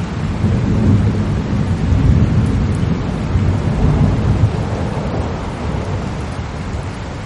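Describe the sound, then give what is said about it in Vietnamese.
Thunder roars across a mountain as a loud, continuous rumble with a heavy hiss, rolling on without a break for several seconds. “Trong bóng tối chỉ nghe thấy tiếng sấm kinh thiên động địa rền vang khắp núi Dã Nhân.”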